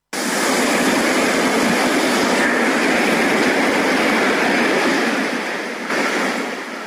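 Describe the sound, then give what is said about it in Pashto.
Sea waves washing onto an empty beach in a coastal Italian city, a loud, continuous rushing surf with gentle swells and no voices. “خو اوس د دغه شار ساحلونه له خلکو تشتي او د سمندر څپې خاموشي ماتوي.”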